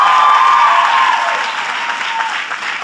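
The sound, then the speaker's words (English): An audience applauds at a Barnard College commencement speech, a dense burst of clapping that starts strong and then gradually thins and fades. “I recognize that's a cheap applause line when you're given a commencement at Barnard.”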